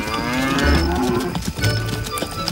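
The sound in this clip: Cows mooing while being herded to pasture near the jungle: two long, low, droning moos, each lasting under half a second, rise out of a steady layer of background sound.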